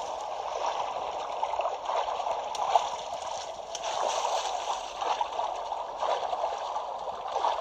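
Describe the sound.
Water sloshing and gurgling as a character swims in The Legend of Zelda video game, a steady, continuous wash of splashy noise with small surges and no clear breaks.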